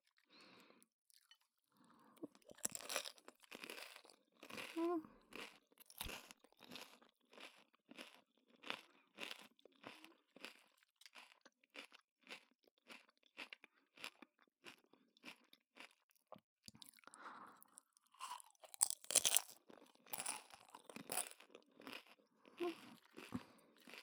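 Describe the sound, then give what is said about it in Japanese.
Crisp tacos with crunchy vegetables being bitten and chewed, giving many sharp, crackly crunches in an irregular rhythm against a quiet background, with a denser burst of crunching near the end. “シャキシャキ感とタコスのパリパリ感がいいですよね。”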